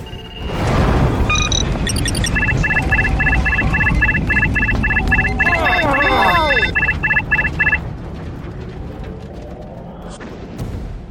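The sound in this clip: Starship engines accelerating to warp 8 in a science fiction audio drama: a steady rumbling roar with rows of repeating electronic beeps and tones, swooping chirps near the middle, then a fade to quieter rumble.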